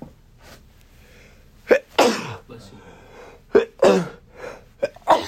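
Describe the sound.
A person sneezes a few times in sharp, explosive bursts separated by short quiet gaps, each burst loud against a faint background.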